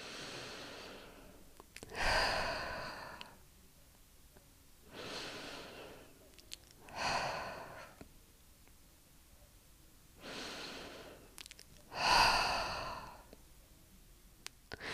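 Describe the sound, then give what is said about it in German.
Slow, calm breathing in and out through the nose, part of a breathing exercise for stress: several soft, airy breaths with sigh-like exhales, evenly spaced with quiet pauses between them, fairly faint and without talk. “Atme am Anfang am besten dreimal ganz normal ein und aus.”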